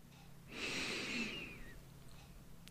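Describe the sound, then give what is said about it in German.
One slow, deep breath is drawn in through the nose during a guided breathing exercise, a soft, airy inhale swelling for about a second before fading into quiet. “Atme tief durch die Nase in deinem Bauch.”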